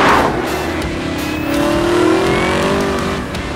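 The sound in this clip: Engine of a 2018 Chevrolet Camaro ZL1 1LE accelerating hard, a loud, continuous roar whose pitch climbs steadily through the middle of the run before holding high, with no voices.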